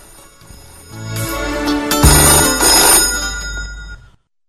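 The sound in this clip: A telephone rings loudly with an incoming call, a bright electronic ringtone with a tonal pattern that lasts about three seconds and then cuts off abruptly.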